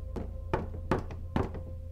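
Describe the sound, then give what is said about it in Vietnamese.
Rattling knocks on a wall: a few dull, hollow raps spaced unevenly over a low, steady hum, each one short and clipped. “Hiền rùng mình khi nghe tiếng gõ lạch cạch ở ngay bên vách”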